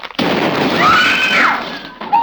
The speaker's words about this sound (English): Oh, what was that? What happened? It exploded. That glass thing blew up. It set everything on fire.